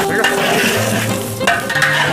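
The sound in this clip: Food stir-fried in a wok with a spatula: a loud, continuous sizzle and frying hiss, broken by a few sharper scraping strokes of the spatula against the pan, with no voices.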